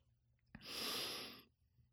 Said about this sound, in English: I have a deviated septum, a really bad one. And when I breathe, like, it's so loud, and I stand and I'm like right in front of the mic.